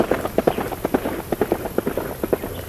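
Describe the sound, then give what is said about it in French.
A Haflinger pony gallops away, its hooves making a rapid, uneven clip-clop of many quick hits at a fairly steady loudness throughout. “Quand il m'a remarqué, le poney Halflinger s'est enfui au galop, sa robe ocre brillant sous le soleil.”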